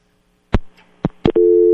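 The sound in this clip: Telephone busy tone after a caller's line dropped: three sharp clicks on the line, followed by a loud, steady electronic tone that runs to the end.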